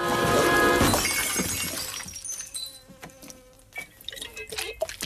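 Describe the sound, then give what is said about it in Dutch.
A blowfly buzzes in a film scene. A thin, wavering drone follows a loud crash of breaking glass from a smashed pickle jar at the start, and a few faint knocks sound over the buzz. “En vervolgens horen we een bromvlieg vliegen.”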